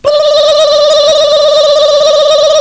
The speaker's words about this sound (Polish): Zadzwoniłem w tej sprawie do skupu złomu.